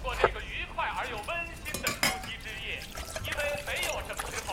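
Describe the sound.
Dishes and cutlery clink as hotpot is served at the table, with scattered light chinks and taps and a soft pour among them, under quiet talk.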